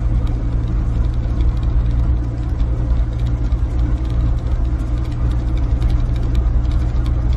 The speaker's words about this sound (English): Entire bridge packed, not a single vehicle moving. Every bridge I've passed has been the same way. Packed vehicles, they're just not moving.